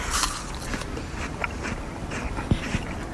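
Crisp bites into a Notarisappel apple, with a few short, crunchy bursts over a low steady hiss. The sharpest crunch comes late.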